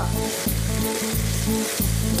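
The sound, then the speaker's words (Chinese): Chicken fries in oil in a wok over high heat, with oil added bit by bit. A loud, steady sizzle runs throughout, broken by a few brief stirring knocks. “再放上，慢慢的、逐步的补油。你看到刚才那油已经被鸡肉吃进去了。”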